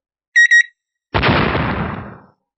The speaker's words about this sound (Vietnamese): Hai quả bom hẹn giờ đột nhiên nổ tung